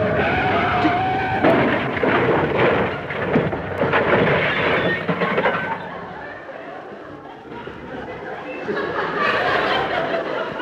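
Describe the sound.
A car drives down off the pavement and brakes hard near a newspaper kiosk: a loud, continuous rumbling and skidding noise that eases midway, then swells again toward the end.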